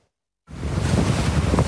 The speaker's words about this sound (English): The storm surge washing away this pier in Santa Cruz. Powerful winds uprooting trees,